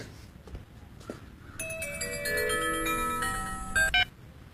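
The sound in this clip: An electronic telephone ringtone sounds after a brief quiet stretch: a steady chime of layered bright tones holds for about two seconds, then cuts off.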